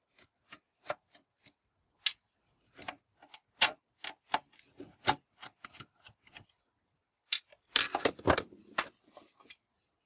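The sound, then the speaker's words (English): Sharp, irregular ticking clicks of screws being undone from a solid, sturdy metal switch housing, the last two of five screws, with many dry clicks spaced out and then a dense cluster of clicking near the end. “I already removed 3 of the 5 screws, and I will undo the next 2.”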